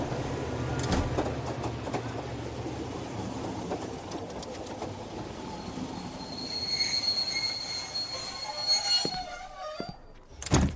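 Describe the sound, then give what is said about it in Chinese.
A train pulls into a mountain station in snowy weather. Its heavy rolling rumble carries on under high, shrill wheel squeals that get stronger toward the end, with a few sharp metallic bangs near the finish. “各位旅客请注意，列车即将到达秦岭车站”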